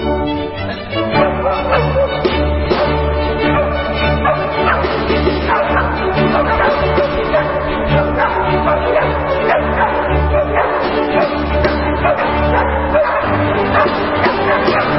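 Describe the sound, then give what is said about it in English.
Three dogs bark and yip alongside a chamber orchestra playing a hunting symphony. Sustained orchestral tones run loud and continuous throughout, with repeated barks and yelps layered over the music. “What you hear there is the Danish Chamber Orchestra, accompanied by three dogs, for their recent performance of the Hunting Symphony by Wolfgang Amadeus Mozart's father, Leopold.”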